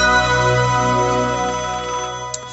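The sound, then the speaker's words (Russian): A telephone ringtone sounds for a call put through to an expert during a marathon phone-in. It is a steady, sustained electronic tone rich in harmonics, heard alone, holding level for over two seconds before fading out. “Звонок эксперту на радиомарафон.”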